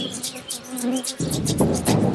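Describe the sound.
Buzzing of a bee swarm around nests in a banyan tree in a village, a continuous high hum with many overlapping wingbeat tones.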